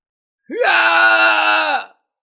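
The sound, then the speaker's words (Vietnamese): A man wails in agony after an arrow strikes his belly and shatters his power. It is one loud, sustained cry that rises sharply at the start, holds steady for over a second, then falls away and stops. “Khương Hoài An kêu thảm thiết, ánh mắt lộ ra thần sắc tuyệt vọng”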